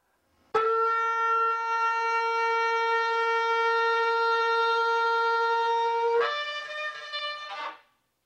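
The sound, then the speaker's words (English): A shofar sounds one long tekiah gedolah blast, a bright, buzzy horn tone held steadily for about seven seconds. Near the end the pitch jumps up to a higher note, and then the blast cuts off. No voices are heard. “the tekea gadola is the one blast that increases in loudness as it blasts.”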